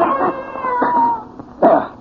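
Cat yowling: a few drawn-out, wavering wails with a harsh, whining tone, loud and separated by short gaps, with no talking.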